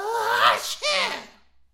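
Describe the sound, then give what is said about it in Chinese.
A voice imitating sneezing, a couple of loud, breathy voiced bursts in quick succession, each briefly rising then falling away, with a faint trailing sound at the end. “打了仨喷嚏，就觉乎着有点不对”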